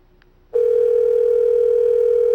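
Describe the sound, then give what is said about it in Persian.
A telephone dial tone, heard while calling an answering machine, begins abruptly after a short quiet moment and holds as one loud, steady, unbroken pitch to the end. “تلفن بزنم به انسرینگ ماشین خودم.”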